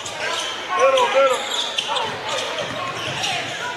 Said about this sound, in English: Too much ISO ball and staring and watching the guy with the ball dribble around.